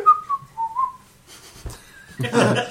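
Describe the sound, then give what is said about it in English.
A person whistles a few wavering, thin high notes, sliding slightly in pitch, then goes quiet before a brief higher whistle and a burst of broad noise at the end. “I'm surprised the whistle came out.”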